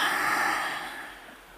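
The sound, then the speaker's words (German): A deep breath drawn in through the nose and let out through an open mouth, heard as a steady airy rush that gradually fades away with no voice over it. “Komm hier mal bei dir an und atme tief durch die Nase ein und durch den geöffneten Mund wieder aus.”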